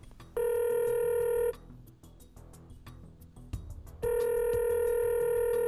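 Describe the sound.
Telephone ringback tone while dialing out to call someone: two long, steady, high tonal rings separated by a few seconds of low hiss, the second ring running to the end.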